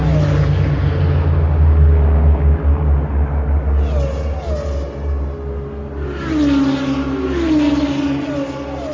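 A car accelerating out of the last corner of a race track, the engine's rumble climbing in pitch in repeated upward sweeps as it pulls through the gears, loud and steady.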